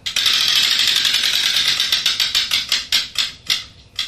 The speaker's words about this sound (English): All right, so let's give that wheel another spin.